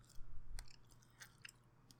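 Faint chewing of a dry, buffalo-sauce-flavoured snack, with a few soft, crisp crunches scattered between quieter mouth noises and no talk.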